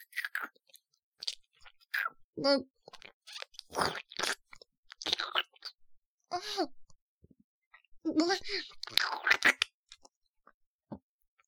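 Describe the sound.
Crunchy food being bitten and chewed: a run of sharp, crackly crunches in uneven bursts, with brief breathy vocal sighs and murmurs between them.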